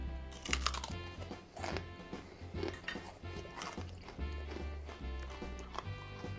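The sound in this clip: Crisp crunching and chewing of homemade honeycomb toffee as someone bites into it, with many sharp cracks and crackles over a steady low, tonal background.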